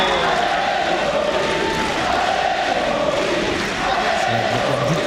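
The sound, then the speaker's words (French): A tennis crowd on the Suzanne Lenglen court cheers and shouts in a loud, continuous roar that holds steady throughout. “Justement, il a été porté par le public du Suzanne Lenglen qu'on peut-être écouter.”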